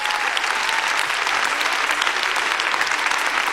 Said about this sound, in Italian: Ma secondo purtroppo, me se adesso gli dedichiamo un applauso è una cosa bella e giusta.